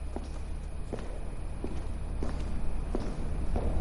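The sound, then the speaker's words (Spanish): Slow footsteps walking toward a car in a poorly lit courtyard: soft, evenly spaced steps, about six, sound faintly over a steady background hiss. “camina despacio hacia el coche y llega hasta un patio poco iluminado”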